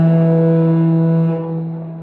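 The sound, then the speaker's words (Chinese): A large ship's horn sounds one long, deep, steady blast as the vessel departs. The tone is loud and rich in overtones and eases slightly toward the end. “大船鸣笛起航，驶向大海。”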